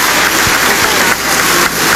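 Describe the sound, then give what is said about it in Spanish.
Applause for the female president in Peru's Congress as she is about to address the nation: a dense, steady wash of clapping that continues evenly throughout, with no talk over it. “En tanto, los aplausos continúan a la mandataria, quien va a proceder en estos momentos a dar el mensaje a la Nación.”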